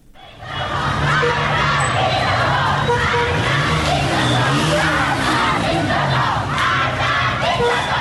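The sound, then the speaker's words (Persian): Schoolgirls at a protest in Qom, Iran, chant an anti-regime slogan in unison. The loud, massed young voices are rhythmic and shouted, and they sustain throughout after a short rise at the start. “شمار از دختران در قم چادرهایشان را در دست گرفتند و شعار مرگ به دیکتاتور سر دادند.”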